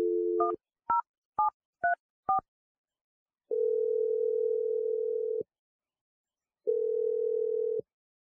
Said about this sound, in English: I'm going to dial Mike's number, and we're going to see if he answers and what he has to say for himself. Are you ready? Barry, yeah. Okay, here we go. I'm dialing his number right now.